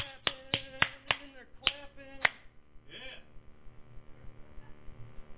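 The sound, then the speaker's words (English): A person claps their hands to show how worshippers clap during prayer. About six sharp, quick claps land in an uneven rhythm, then a softer clap follows after a short gap. No one speaks during the claps. “It's like a clap, and then they get to clapping,”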